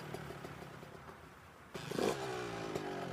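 A motor scooter engine struggling to start in cold weather: a faint, uneven sputter that suddenly catches partway through, then keeps running as a steadier, louder rumble.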